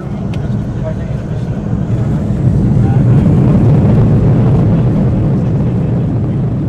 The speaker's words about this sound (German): Kurz dröhnt es über die Startbahn und dann hebt der Airbus A319 ab und steigt und steigt und steigt.